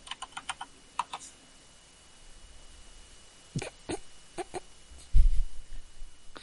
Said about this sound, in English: waiting for him to type one more time just to see